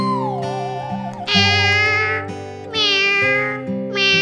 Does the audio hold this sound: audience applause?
no